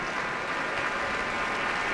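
A concert audience applauds enthusiastically as a pianist returns to the stage, a dense, steady wash of clapping with no pauses.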